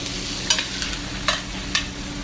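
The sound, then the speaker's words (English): Shallots and garlic frying in foaming butter in a pan make a steady, dense sizzle throughout. A few sharper stirring bursts stand out above the continuous crackle. “So here goes the shallots and the garlic. My butter is going to start getting foamy.”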